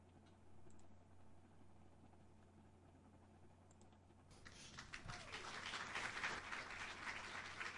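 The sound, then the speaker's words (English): Tepid applause from an audience at a political speech about reopening the government, beginning after several quiet seconds and swelling gradually into a thin, scattered patter of hands that never grows very loud. “That's the very definition of tepid applause. Clap, you fuckers!”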